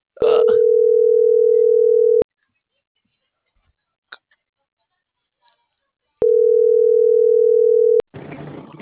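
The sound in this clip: A telephone ringing tone plays on an outgoing call. Two long, steady, mid-pitched tones of about two seconds each are separated by roughly four seconds of near silence, with short bursts of noise at the start and end.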